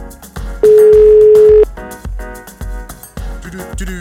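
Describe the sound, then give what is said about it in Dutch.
Ringing tone on an outgoing telephone call: a single steady, hum-like tone lasting about a second, standing loud above background music. “klinkt als een zeer grote brom. Maar... ja, hij gaat in ieder geval over.”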